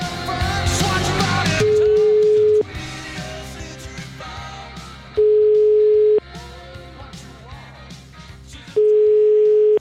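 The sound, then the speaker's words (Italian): A telephone tone sounds while a call is being placed: three steady, one-second beeps at a single mid pitch, separated by pauses of about two and a half seconds. Fainter background sound fills the gaps. “Il signor Azzolini, noi lo abbiamo chiamato e glielo abbiamo chiesto”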